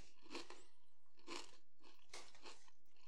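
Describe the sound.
Spicy Cinco de Mayo flavor Pringles chips crunch as they are bitten and chewed, with a few crisp, bright bursts spaced about a second apart and no talk.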